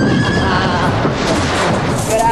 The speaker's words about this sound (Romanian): Ăsta e cal de general. Un cal care face 10 galbeni ca nimica.